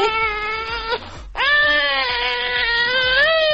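A recorded baby crying: two loud, sustained high-pitched wails separated by a brief pause, with the second wail longer than the first.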